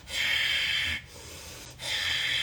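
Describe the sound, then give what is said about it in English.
Forceful warrior-breath exhales blast through the nose during a breathing exercise: two strong, hissing bursts, each lasting nearly a second, separated by a softer, quieter stretch of breath. “out through the nose, warrior breathe. This is like that, you know, the warrior breath.”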